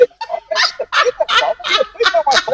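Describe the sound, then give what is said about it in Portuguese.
A small pet bird gives a rapid series of loud, harsh, honk-like squawks in a fairly steady rhythm, with no talking. “deixa-me falar com esta passarinha. Hoje vou passar lá a cantar. Então, outra vez, vê se ela canta a minha.”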